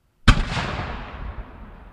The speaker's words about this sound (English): a final cannon went off to memorialize the collapse of the North Tower at 10:28 a.m.